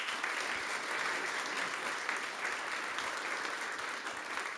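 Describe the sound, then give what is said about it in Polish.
An audience applauds at a history book award ceremony, a steady, even wash of clapping that holds at a fairly soft level throughout without voices. “Jeszcze raz prosimy Państwa o brawa.”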